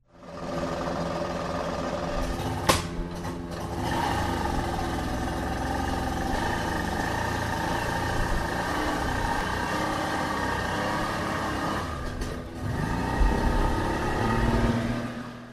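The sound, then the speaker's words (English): Engine-powered boats on Virginia's New River on the first day of National Safe Boating Week: an unbroken, steady motor drone runs through the whole clip, with a couple of brief sharp knocks. “Those were boats on Virginia's New River on May 19th, the first day of National Safe Boating Week for 2012.”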